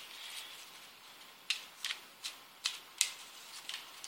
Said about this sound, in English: Oh, and it fell. The card that fell.